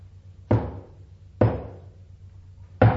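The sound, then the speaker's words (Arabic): Knocking on a gate: three heavy, evenly spaced single knocks, each a sharp, loud thud with a short ringing decay and quiet between blows. “وفجأة سمعوا طرقا على البوابة.”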